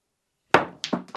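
Snooker cue ball striking the balls during a match: one sharp, solid knock followed by a few quicker, softer clicks as balls collide, with no voices.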